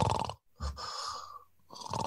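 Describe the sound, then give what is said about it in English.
A person wearing a dentist-made mouthpiece imitates a small, soft snore: three breathy, snuffling bursts separated by short pauses, faint and close, with no other voices. “You have like a mouse sleeping in a matchbox snore.”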